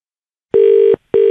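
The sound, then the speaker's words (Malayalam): Ringback tone of an outgoing phone call placed from a radio studio in Kochi to a listener: a steady mid-pitched electronic tone sounds in two bursts, the second cut short, with no talk over it. “ഞാൻ കൊച്ചി ആകാശവാണിയിൽ നിന്ന് വിളിക്കുകയാണ്.”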